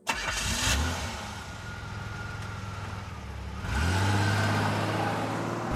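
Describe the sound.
A car engine cranks and catches, then settles into a steady running hum. Near the end it revs up louder and higher.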